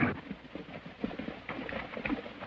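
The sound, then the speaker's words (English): Hoofbeats of a horse galloping toward the edge of a steep riverbank after balking, a quick rhythmic clip-clop of repeated thuds, fairly faint and alone. “His horse balks, but urged on, gallops to the bank's edge and leaps to the river below.”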